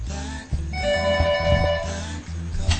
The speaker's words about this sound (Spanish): Tenemos una llamada en el estudio.